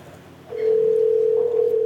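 A continuous telephone tone begins partway through as a call is placed, a steady, even hum that holds to the end over faint background noise.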